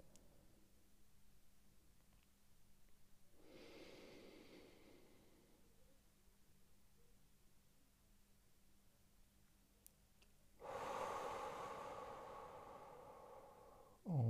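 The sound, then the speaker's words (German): Slow breathing during a timed breathing exercise: a soft, airy hiss of breath swells and fades, then a louder, fuller rush of breath comes near the end. “wenn ich jetzt einatme, ich sehe hier Gott sei Dank die Stoppuhr quasi, dementsprechend atme ich jetzt ein”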